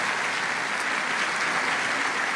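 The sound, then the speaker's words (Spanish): A church audience gives a welcoming round of applause, steady and even clapping from many hands that holds at a moderate level throughout, with no voices standing out. “Les enviamos un abrazo en Cristo y les damos este aplauso de bienvenida también a todos ustedes, santos hermanos.”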